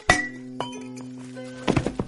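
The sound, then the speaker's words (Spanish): Glass champagne bottle kicked and falling: a sharp thunk with a ringing clink, then a lighter knock, then a quick cluster of clattering clinks as it lands, with a sustained glassy tone hanging between the hits. “Patea la botella de champán que cae sobre la novia.”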